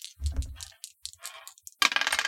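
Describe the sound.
Dice being rolled for a tabletop game give a quick run of small clattering clicks and rattles that ends in a denser burst of clatter.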